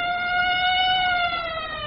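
A police patrol car siren passing, a loud, steady, high wailing tone that dips slightly in pitch and fades a little toward the end.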